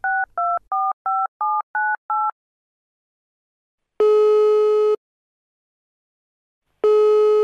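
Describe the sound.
Touch-tone dialing of a telephone number: seven short, clear beeps in quick even succession. After a pause come two long, buzzy ringing tones.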